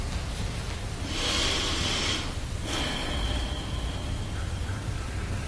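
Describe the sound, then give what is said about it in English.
A deep breath drawn in, heard as a long, airy whoosh that swells and then fades over a constant background hiss. “So I'm just going to take a breath there.”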